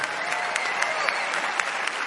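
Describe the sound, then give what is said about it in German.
Applause for a keyboard player at a concert: a dense, steady crowd clapping that holds an even loudness throughout. “Applaus hier an die Taste.”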